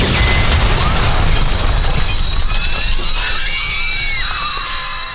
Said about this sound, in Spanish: todo explota.